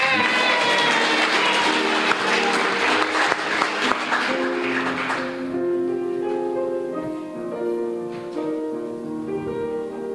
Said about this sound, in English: That was episode one of our radio series, and these are the Carry the Flame players, folks. Big hand for them.